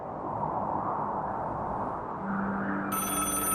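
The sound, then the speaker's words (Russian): A telephone bell begins ringing near the end, its bright, high jangle rising over a steady rushing noise that fills the whole clip. “В тот вечер телефон зазвонил в половине шестого.”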